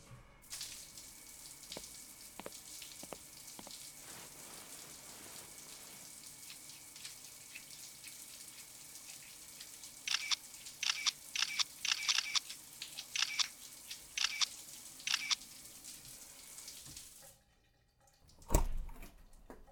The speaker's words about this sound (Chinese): 那么亲爱的，你去洗澡吧